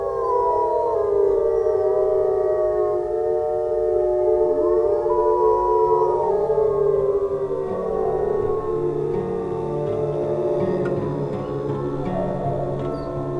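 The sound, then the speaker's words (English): Wolves howl to reunite their pack after splitting up during a hunt. Several long, overlapping howls waver and slide in pitch, forming a continuous, moderately loud chorus with no voices. “during a hunt, one of the wolves wandered off and sort of got lost, broke away from the pack, so helping a pack reunite, because they split up when they hunt, right?”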